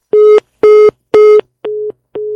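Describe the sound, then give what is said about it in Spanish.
A telephone busy tone after a call was cut off: five evenly spaced beeps at one steady pitch, the last two slightly quieter, with no voices. “se cortó la llamada con Mariana Gómez del Campo”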